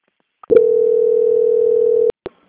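Steady single-pitch telephone tone heard while a bank call is being transferred, holding unchanged for about a second and a half, with brief clicks just before it starts and again shortly after it stops.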